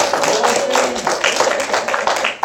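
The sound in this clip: Audience applause at a church service's child dedication: a brief patter of scattered claps rising and falling over about two seconds, with a voice faintly present.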